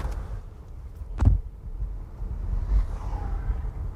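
A car drives through darkened city streets in Atlanta, giving a low, continuous rumble with wind noise and a brief thump partway through.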